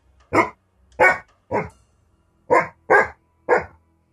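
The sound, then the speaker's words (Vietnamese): Loud barking from a white-haired dog, six sharp separate barks in an uneven rhythm, two spaced pairs and a quick run of three, each short and forceful with nothing between them. “Tiếng chó sủa vang lên rất lớn. Đó là tiếng của con chó lông trắng đứng ở trên nóc nhà tôi mỗi đêm.”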